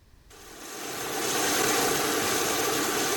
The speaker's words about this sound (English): that's the sound of a plane with lower carbon emissions. The aircraft is refueling on the tarmac at the Telluride Regional Airport